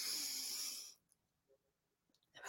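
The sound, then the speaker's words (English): A long, loud rush of breath during a guided group breathing exercise. The airy, hissing exhale lasts about a second, then gives way to near silence with a few faint soft sounds. “taking a deep breath in so we can all just feel that very, very special energy together”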